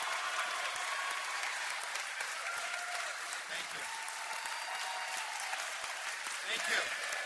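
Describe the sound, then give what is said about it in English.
Audience applause welcoming Governor Branstad at a Republican campaign event: steady, dense clapping that holds at an even, fairly soft level for the whole stretch. “Please give me a warm round of welcome to Governor Branstad.”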